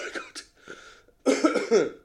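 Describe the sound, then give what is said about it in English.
A few harsh, throaty coughs, a couple of short ones and then a louder, rougher burst at the end, heard alone. “yeah, full-blown tuberculosis. I mean, this is why Aaron McCann is always coughing his head off”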